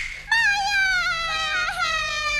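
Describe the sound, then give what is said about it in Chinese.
A child crying in one long, high, continuous wail whose pitch slowly sinks, wavering briefly near the end. “别哭了别哭了。哎呀，这白天都哭成这个样子”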